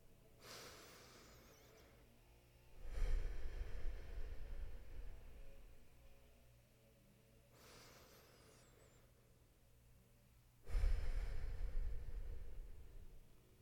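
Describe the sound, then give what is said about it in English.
Two slow, deep breaths, each a faint, airy inhale followed by a louder, longer breathy exhale, quiet and alone with no talk. “Let's begin with two deep breaths.”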